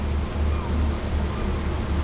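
Waves wash around a ship at sea, heard from the deck. A continuous, heavy low rumble of water mixes with wind noise, steady and unbroken.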